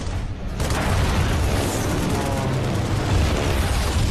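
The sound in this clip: Wartime gunfire and explosions from 1940 form a dense, continuous roar of rumbling blasts and crackling. It stays loud and steady for the whole clip, with no clearly separate shots standing out.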